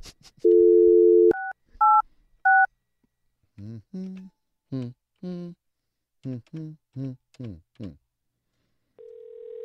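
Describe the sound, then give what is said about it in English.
A telephone dials an office number: a steady dial tone, three short keypad beeps, then a voice speaking in short bursts, and finally a steady ringing tone begins at the end. “I think we just have her office number. That's what Phoebe gave to me. Let me see if her office rings to her voicemail.”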